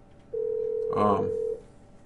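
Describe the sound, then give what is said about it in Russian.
A telephone call is being placed, with a single long, steady mid-pitched line tone lasting just over a second before cutting off, and a brief voice overlapping it midway. “Сейчас я Светлане позвоню и попрошу ее скинуть мне, может быть, в скайпе.”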